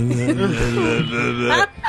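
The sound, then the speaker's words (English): A voice imitates two drugged people whining incoherently to each other, a drawn-out, wavering nasal moan that rises and dips in pitch before breaking off with a short gasp. “they're just like whining incoherently to each other”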